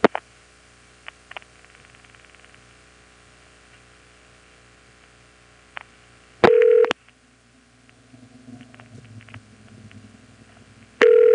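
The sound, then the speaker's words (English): A telephone line dialing 311 into automatic toll switching equipment in New Bern: a few faint clicks over a hushed line, then a loud steady tone cuts in briefly, a low murmur of line noise follows, and the tone returns at the end. “I'm dialing 311, which I expect will be a vacant code for New Bern's long distance equipment.”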